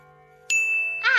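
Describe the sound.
A pendulum clock chimes: one bright, clear strike that rings on in a sustained tone, followed near the end by a brief, harsher burst.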